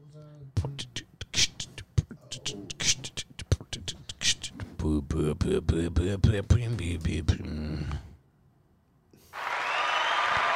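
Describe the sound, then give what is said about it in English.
A canned crowd cheer fired from a soundboard button swells into a steady, loud roar, coming after a stretch of people talking and a short pause. “Crowd goes wild. We need new buttons.”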